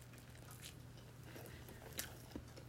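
Faint crunchy bites into food coated with tomato ketchup and mayonnaise, a few soft crunches rising briefly above a steady low hum.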